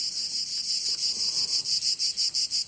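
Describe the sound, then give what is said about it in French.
Cicadas chirr in Provence in a steady, high, dense buzz. The buzz pulses in a regular rhythm that grows more distinct toward the end, and no other sounds are heard. “C'est les cigales.”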